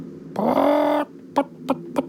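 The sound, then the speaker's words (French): A hen clucks: one drawn-out, harmonic squawk is followed by three short, clipped clucks, fairly loud against a quiet background. “Mais on dirait le bruit d'une poule.”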